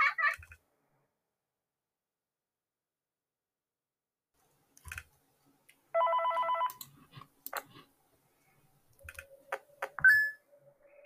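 Phone ringing in a horror video game: one short buzzing, trilled ring burst stands out among scattered clicks, soft beeps and brief electronic tones.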